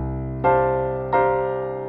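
A piano plays two chord voicings one after the other, the left hand holding D and G and the second right-hand shape sounding C, F and B flat. Each chord is struck once and rings out, decaying slowly, with no talking.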